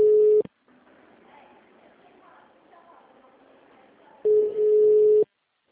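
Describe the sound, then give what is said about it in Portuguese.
Telephone ringback tone while a call is placed: two steady mid-pitched tones, a short one at the start and a roughly one-second one after a long pause, with faint murmuring between them. “Tá chamando.”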